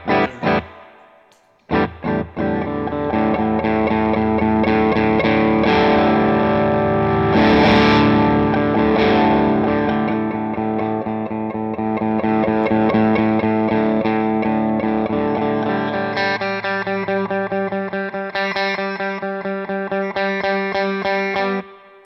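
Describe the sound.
Electric guitar played through a Coppersound Strategy preamp pedal, with its volume and tone controls being adjusted. The tone is loud, distorted and continuous, with sustained chords ringing throughout and no talking.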